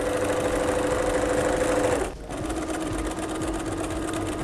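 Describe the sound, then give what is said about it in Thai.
A sewing machine stitches along the folded edge of a bag, a steady mid-pitched whirring hum that stops briefly partway through, then starts again and runs on evenly. “จากนั้นเราก็ค่อยๆพับแล้วก็เย็บไปตามรอยของแนวกระเป๋านะคะ”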